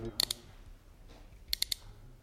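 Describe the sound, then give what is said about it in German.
A revolver's drum cylinder is spun a few times while held up to a microphone, giving two short bursts of quiet, sharp ratcheting clicks, each about three clicks long, separated by a second of near silence. “Ich drehe also jetzt den Trommelzylinder. Bitte halten Sie ihn doch hier ans Mikrofon, damit es alle hören können. Ja, gut. Ich drehe nun den Trommelzylinder ein paar Mal herum.”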